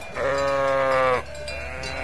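A sheep from a farmers' flock gives one long, wavering, nasal bleat, loud and clear, followed by a fainter, lower bleat trailing behind it.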